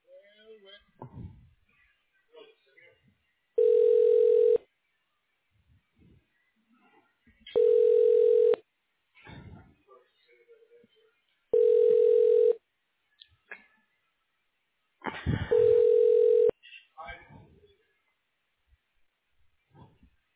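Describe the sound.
Ringing tones play while a telephone call is transferred to an office extension: four evenly spaced, one-second electronic rings about four seconds apart, each at a steady mid pitch. Faint voices and scattered line noise fill the gaps between them.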